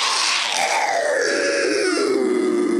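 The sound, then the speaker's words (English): An unearthly screech wells up from the depths of a pit, a loud, harsh, continuous cry lasting about three seconds whose tone slides steadily downward, heard alone without voices. “There is this unearthly screech from the depths of the pit.”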